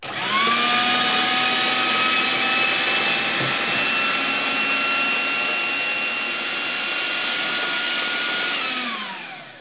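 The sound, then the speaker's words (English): A blender whirs as it blends egg yolks for aioli, a steady, loud motor whine over broad hiss that spins up quickly, holds for about nine seconds, then winds down at the end. “I'm just gonna blend the yolks up for a little bit, and then once they kind of go a little bit kind of paler in colour, I'm gonna start adding the oil really slowly.”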